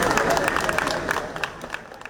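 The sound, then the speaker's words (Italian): Neapolitans and tourists applaud and greet the president in Naples' historic centre, a crowd clapping in a dense patter mixed with voices that eases off toward the end. “Nel centro storico, applausi e saluti di napoletani e turisti al presidente.”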